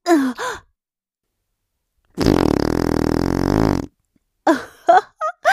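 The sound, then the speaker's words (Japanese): A long, loud, buzzing fart lasts well over a second. Short breathy vocal sounds come before it and after it. “おならもちゃんと嗅がないとダメじゃないの。”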